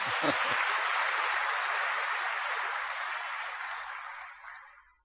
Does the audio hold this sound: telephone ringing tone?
no